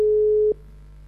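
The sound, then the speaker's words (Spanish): A telephone line tone sounds on an unanswered call: one steady, mid-pitched electronic beep lasting about half a second, then cutting off sharply to near silence. “Porque no le vuelvo a llamar. Voy a poner al aire para que no diga después que no le estoy llamando.”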